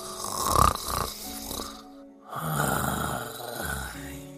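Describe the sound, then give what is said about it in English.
A 15-year-old pug takes deep, snoring breaths: two long, rough, snorting inhalations with a short quiet gap between them. “A deep cleansing breath. Maybe you can do better than a 15-year-old pug.”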